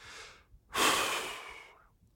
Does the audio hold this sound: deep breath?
yes